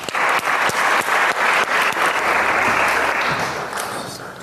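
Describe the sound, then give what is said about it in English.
Applause welcoming a speaker to a lecture on black feminism in Europe: a steady, loud patter of many hands clapping that tapers off toward the end. “Please give a very warm welcome to S.M. Rodriguez.”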